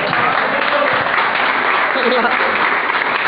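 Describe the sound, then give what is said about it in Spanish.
A crowd claps at the opening of a town festival in Buñuel honouring colleagues on a fiftieth anniversary, with a thick, steady burst of applause at full volume throughout. “Los aplausos que suceden.”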